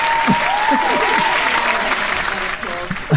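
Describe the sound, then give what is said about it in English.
Audience applause for a musical theatre performer: loud, dense clapping holding steady for about three seconds, with voices rising over it and a brief dip near the end. “Let's give it up for the amazing Carrie Lovegrove.”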